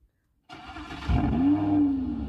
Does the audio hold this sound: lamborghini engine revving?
yes